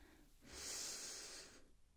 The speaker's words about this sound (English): Take a deep breath for me. And out. Deep breath in.